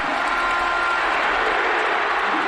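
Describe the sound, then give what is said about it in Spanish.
Timid applause rises from a football stadium crowd as players are announced over the public address, a soft, steady wash of clapping without cheers. “Hay aplausos. Pero tímidos, ¿no? Bueno, pues hay aplausos.”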